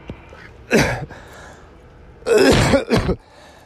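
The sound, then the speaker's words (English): A person coughs and clears their throat in three harsh, loud bursts: one alone, then a quick pair after a pause, with no talk. “I thought I'd cough in front of the camera a little bit.”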